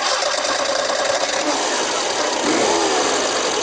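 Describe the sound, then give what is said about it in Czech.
Engine of a Škoda Favorit car running: a loud, continuous mid-pitched hum with a slightly rough, buzzing texture that holds steady throughout. “Celou éru favorita teď zakončíme charakteristickým zvukem motoru.”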